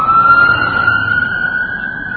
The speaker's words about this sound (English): Wow, he's going fast. That was a police car here in London.